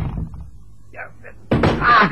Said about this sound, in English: That's a neat trick, putting that chair in my way to fall over in the dark.